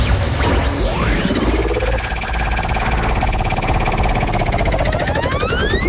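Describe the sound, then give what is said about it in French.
A game-show prize wheel being spun: a loud, dense whirring with rapid, steady clicking and sweeping tones that continues without a break for several seconds. “je vous invite tout de suite à tourner la roue.”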